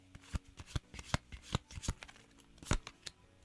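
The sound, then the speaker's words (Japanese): Playing cards being shuffled: many sharp, crisp riffling bursts in an uneven rhythm, each a quick papery flutter, with no talking. “カードを切る音がね出ておりますけどね”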